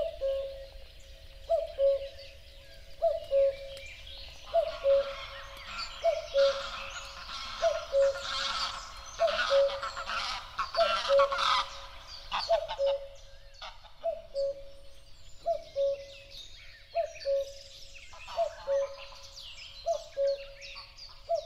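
Birdsong from a nature soundscape recorded away from aircraft and traffic noise: a low cooing call repeats steadily many times, with brighter twittering song rising and fading above it.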